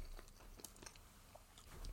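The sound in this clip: Someone chews a crunchy meat-flavoured snack, making a few soft, irregular crunches and bites, very faint and with no talk over them.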